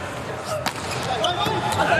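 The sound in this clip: A volleyball serve in a match between the United States and Italy, with a couple of sharp ball strikes standing out over steady background noise and a talking voice.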